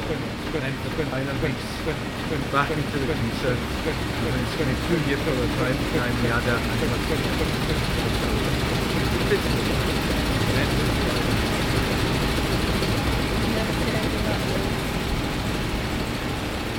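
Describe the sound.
Steady mechanical drone of a mixing machine's spinning pipe, a low, even engine-like rumble that runs unbroken throughout while a person talks over it.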